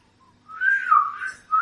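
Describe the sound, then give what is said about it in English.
A whistle summons a horse in a video game. A faint short note comes first, then a longer wavering call that dips, then a brief final note, with no talk. “So you could try and summon his horse Charles with a whistle, like he always does.”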